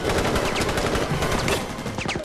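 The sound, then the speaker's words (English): Sustained gunfire in a firefight between people sheltering behind SUV doors and terrorists: dense, rapid, overlapping shots and bursts that fill the whole clip without pause. “They all pile out and, taking cover behind the SUV doors, engage in the firefight with the terrorists.”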